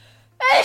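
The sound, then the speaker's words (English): A single sneeze from a hay fever sufferer: a sudden loud, breathy burst that breaks out after a moment of near silence and ends quickly. “And that is the sound of spring. Well, for many of us anyway. And in London, at least, spring has definitely sprung. And along with it, the hay fever season.”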